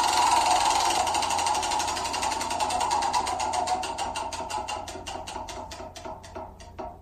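A spinning prize wheel ticks against its pointer in a fast, steady rattle that gradually slows, the clicks spacing out more and more until the wheel comes to rest.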